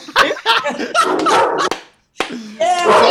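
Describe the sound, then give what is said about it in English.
A dog barks in a few sharp, loud bursts mixed with excited people talking. “Oh, you see, you get the dog excited. That's important. My dog's sitting outside.”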